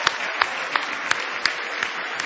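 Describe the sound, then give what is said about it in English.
A church audience claps along in a steady rhythm, with several accented beats about a third of a second apart over a continuous wash of many hands. “Now give Jesus Christ a big hand clap.”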